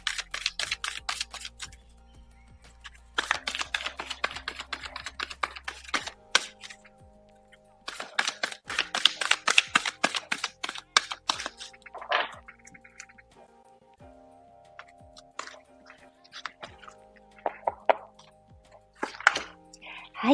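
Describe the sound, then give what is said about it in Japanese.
Oracle cards being shuffled and drawn: bursts of rapid, crisp clicking and slapping riffles separated by short pauses, over soft sustained tones in the background. “それでは、オラクルカード引いていきますね。お待ちくださいね。”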